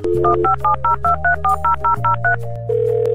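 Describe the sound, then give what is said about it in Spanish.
A telephone number being dialled: a quick run of short, evenly spaced touch-tone beeps in varying pitches over a steady low tone, ending on a held tone. “Seguimos llamando.”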